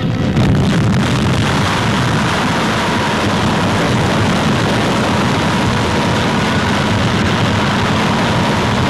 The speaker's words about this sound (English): Brighter than 500 suns, America's most highly developed thermonuclear weapon. Detonation equal in force to 10 million tons of TNT.